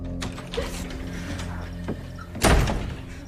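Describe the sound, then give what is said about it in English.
A door is opened as someone fumbles for the doorknob and hurries out: a few faint clicks and rattles of the knob and latch, then a louder, rough clunk near the end that slowly dies away. “Allison fumbles for the doorknob and hurries out”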